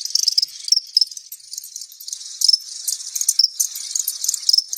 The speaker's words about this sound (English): And that's the sound of crickets.